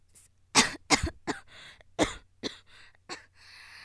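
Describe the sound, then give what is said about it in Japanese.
A run of harsh coughs after someone chokes mid-countdown: loud, irregular bursts with short gaps between them, mixed with throat clearing, then fading to quieter coughs near the end. “ああ、ごめんごめん、むせちゃった。”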